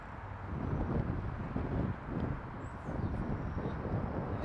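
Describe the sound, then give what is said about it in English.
Strong wind blows across an outdoor jumping platform and buffets the microphone with a dense, rumbling roar that surges in several gusts. No voices are heard. “pretty windy. And the fact that it's pushing me back towards the platform is not... it's the worst way for the wind to be going, in my opinion.”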